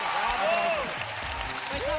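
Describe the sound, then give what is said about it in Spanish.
Audience applause with people's voices calling out, following news of a donation to a charity that performs magic in hospitals. Dense, steady clapping runs through the whole two seconds, with clear talk and exclamations layered on top. “Me uno a ese aplauso y a esas exclamaciones de qué bonito y bien.”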